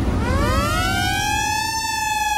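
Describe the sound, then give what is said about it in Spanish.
A siren wail, loud and harmonically rich, rises in pitch and then holds steady over a low rumbling background, used by a radio station to announce the start of the weekend. “La sirena anuncia de que el fin de semana ya comenzó en tu radio.”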